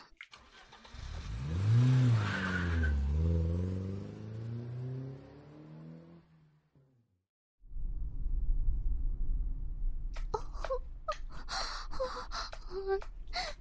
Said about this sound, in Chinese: 小孙，赶紧开车。